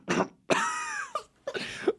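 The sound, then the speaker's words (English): A person deliberately performs several varied, exaggerated coughs in a few bursts. Some are short and harsh, and one longer cough has a throaty, voiced tone that trails off. “You can do different coughs? Try a different cough.”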